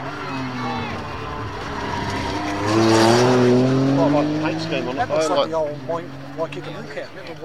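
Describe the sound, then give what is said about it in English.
A Porsche Carrera sports car drives past at the edge of Mount Crawford forest. Its engine note climbs and swells to a loud peak, with a brief tyre squeal, then fades away while people talk over it. “Would that be another Porsche? It would. Is that a Carrera?”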